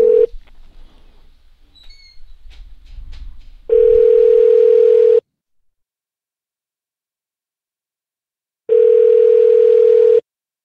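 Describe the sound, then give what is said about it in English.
A telephone dial tone sounds while a number is being redialed: a brief bit of steady tone at the start, soft clicks and rustle, then two long, loud, flat low tones of about a second and a half each, separated by silence. “he's gonna redial the number. Okay, that's what he's saying. He's doing a redial.”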